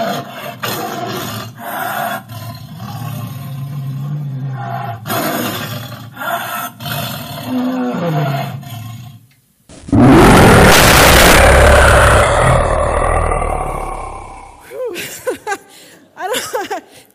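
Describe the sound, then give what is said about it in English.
Tiger roar, a loud, rough, sustained roar lasting several seconds. Quieter mixed sounds come before it, and a few shorter bursts follow it. “the roar of a tiger can literally paralyze its prey with fear”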